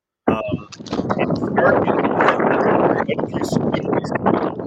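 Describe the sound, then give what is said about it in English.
Wind buffets a microphone outdoors, a rough, loud, constant rumble and roar that runs through the whole clip over a person talking. “Sorry for the wind. It's windy out there.”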